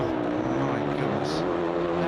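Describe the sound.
A racing engine revs at a race event just after the finish, giving a steady buzzing, harmonic engine tone with slight pitch wobble, while a voice talks over it.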